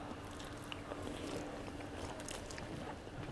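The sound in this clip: Chewing of someone eating a bowl of rice, a faint, continuous, soft crunching and squishing against a steady hiss, with no talk.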